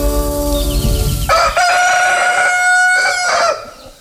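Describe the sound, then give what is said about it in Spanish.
A rooster crows in one long, loud call with a bright, strained, wavering tone that holds for about two seconds before dropping away. “Sigue cantando el gallito”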